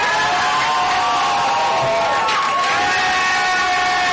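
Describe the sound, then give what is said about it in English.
A live audience cheers a welcome onto the stage with loud, sustained crowd noise. Shouts and high whoops rise out of the steady roar for the full length. “Thank him and give him a warm welcome onto the stage, ladies and gentlemen.”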